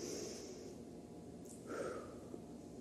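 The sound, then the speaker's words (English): A slow, deep breath drawn in and let out at the start of a church service. The soft, airy rush is faint and steady, with no talk over it. “can we just take a deep breath together? Ready?”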